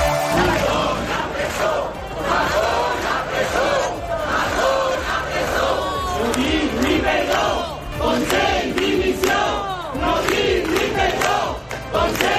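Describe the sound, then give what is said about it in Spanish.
Protesters chant slogans in a crowd of hundreds, a few metres from the Palau de la Generalitat. Loud, continuous rhythmic chanting of many voices fills the whole stretch, rising and falling in waves. “Estos son los cánticos que se escuchan a esta hora. Cientos de personas protestan a unos metros del Palau de la Generalitat”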